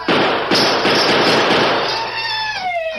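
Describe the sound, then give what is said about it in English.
A gunshot from a silver-mounted revolver aimed at a cluster of bottles on a table: two sharp, loud bursts, then a ringing whine that falls in pitch as it fades. “The Lone Ranger unholstered one of his silver-mounted guns and aimed at a cluster of bottles on a large table in the center of the room.”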